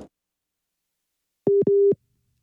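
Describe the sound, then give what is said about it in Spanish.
A telephone busy tone after a dropped call: two short, steady mid-pitched beeps follow each other almost without a gap, heard alone after silence. “se nos cortó la llamada con Ilse Aguilar”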